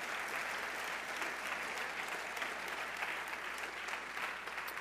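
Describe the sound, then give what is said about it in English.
Church audience applauding to congratulate someone, a dense, steady wash of many hands clapping that holds at an even level for about five seconds. “One more time, let's put our hands together for Manny. Congratulations.”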